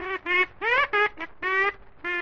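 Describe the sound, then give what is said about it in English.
A duck quacking in a run of seven loud, nasal quacks of uneven length with short gaps and a longer pause before the last, heard alone without talk. “Oh, and here's Happy Duck. Where have you been, Happy Duck?”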